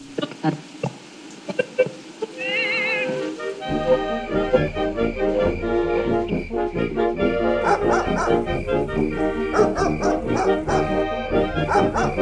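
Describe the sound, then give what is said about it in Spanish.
A loose dog barks outside a home: repeated sharp, yappy barks in quick bursts, at first alone and then mixed into a dense, continuous wash of other sound. “¿Cuántas veces ya les he dicho que amarren a ese perro? Luego se espanta la gente.”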